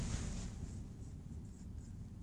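Steady scratchy writing on a board, a continuous dry rasp of the marker or chalk stroking the surface with no talk over it.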